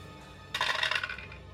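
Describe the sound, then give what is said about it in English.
A pair of dice is rolled during a tabletop role-playing game, a brief, faint rattle of quick clicking hits lasting about half a second. “I got a 6 and a 4 on the dice for a total of 15.”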